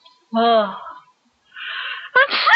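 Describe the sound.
A person with a cold sneezes: a voiced, drawn-out build-up, then a breathy pause, ending in a sharp explosive burst, loud and close.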